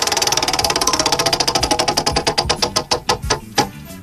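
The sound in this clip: A prize wheel spun fast clicks in rapid, dense ticks that gradually space out and slow, ending with a few widely spaced final clicks as the wheel comes to rest.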